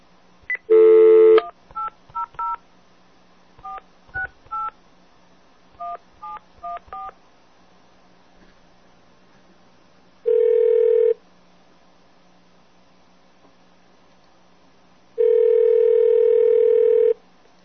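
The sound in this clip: A telephone call is dialed on a keypad with a quick run of touch-tone beeps in several bursts, then a pause and two long, even ringing tones on the line.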